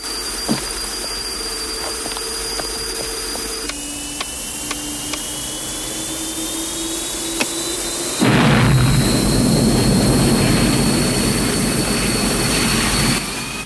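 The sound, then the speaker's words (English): An airplane's engine whines with a steady, slowly rising tone, then gives way to a sudden, much louder roar as the plane sets off down the runway, sustained to the end. “Erickson throws the plane's thruster forward and they set off down the runway.”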